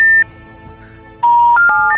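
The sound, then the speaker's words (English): Electronic telephone tones on a phone line: a short steady beep, a silent pause, then a quick run of three stepped beeps climbing in pitch, clear and without talk. “And I think we hit a touch tone.”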